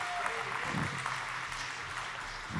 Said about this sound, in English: Would you give Pastor John Wright a big welcome this morning? Come on up.